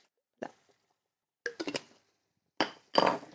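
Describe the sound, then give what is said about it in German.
A spoon clinks against dishes and glass in a kitchen while someone hunts for it and then stirs a red, creamy curry. The bright, short clinks come in three separate bursts with quiet gaps between them. “Noch Löffel finden. Meins umrühren.”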